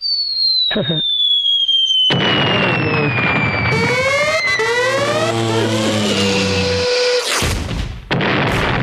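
An explosion sound effect opens with a long falling whistle, then a loud blast with crackling, fizzing bursts and sweeping tonal streaks, and ends with a final sharp burst.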